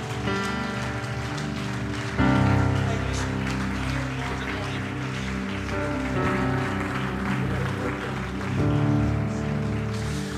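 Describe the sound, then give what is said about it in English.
A church audience gives a standing ovation on a Sunday, sustained applause over steady musical chords, swelling louder around two seconds in and again near the end. “Let's do that one more time for Jesus in the room. Come on, you gave me an ovation.”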